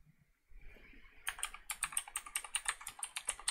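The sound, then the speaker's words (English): Computer keyboard typing as a channel name is entered: after a quiet moment, many quick, faint keystrokes follow one another in a steady, uneven rhythm. “And just type in the name of the channel.”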